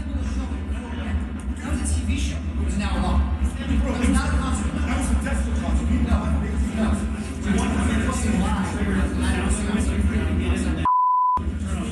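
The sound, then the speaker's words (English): A censor bleep masks a swear word: one short, steady electronic tone near the end, set in sudden silence after a stretch of noisy talk in a stairwell. “Yes, you'll hear a bleep, that the audio sounded like bleep.”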